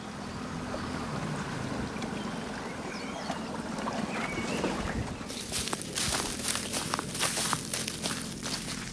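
A punt moves through the water of a Dutch water village, with soft, continuous swishing and lapping at first. Brighter, busier splashes follow in the second half, all fairly quiet.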